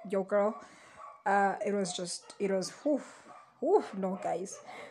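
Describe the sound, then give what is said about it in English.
Dogs barking at passers-by, the sharp barks and yips breaking out in the background while a person talks steadily over them. “Excuse the noise. It's just the dogs that keep barking at everyone and anything really that passes.”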